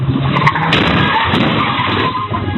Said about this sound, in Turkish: Bir anda gazı kökleyen sürücü önündeki araca ve park halindeki otomobile çarptı. Çarpmanın etkisiyle araçlar sürüklendi.